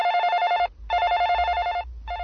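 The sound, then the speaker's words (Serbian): A telephone rings with a steady electronic trill in repeated bursts: two full rings separated by short pauses, then a third that is cut off, over a faint low hum. “Nećemo dozvoliti da telefon zvoni u beskraj”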